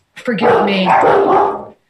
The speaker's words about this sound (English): forgive me, my dogs are hearing something, and they are alerting you